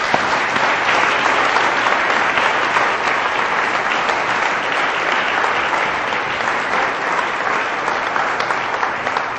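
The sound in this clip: Audience applause welcoming a speaker to the stage: dense, steady clapping that stays at an even, fairly loud level from start to finish, with no voices standing out.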